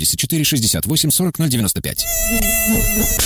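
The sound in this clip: A mosquito's thin, high-pitched buzzing whine in a radio advert for an anti-itch gel, heard loud and steady for over a second right after a voice.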